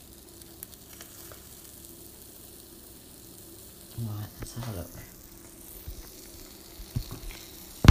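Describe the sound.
A sandwich fries in a pan with a faint, steady sizzle and crackle. A few louder clattering scrapes come near the middle and at the end, and a person speaks briefly.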